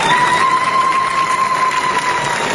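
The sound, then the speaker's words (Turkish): Applause and ululation fill a parliament chamber as members celebrate a vote result: dense, steady clapping with a high, sustained vocal tone running through it, loud from start to finish. “Alkışlar ve zılgıtlarla kutlama yaptılar.”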